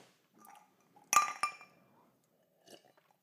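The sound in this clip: Glasses clinking over drinks of gin and tonic: a few bright, ringing clinks with a louder pair close together in the middle and softer taps before and after, with no talk.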